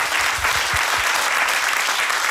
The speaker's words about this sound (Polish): Wielkie brawa. Brawo!